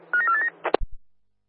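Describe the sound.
Telephone being dialed: a quick run of short electronic tone beeps, then a few soft clicks before it falls silent.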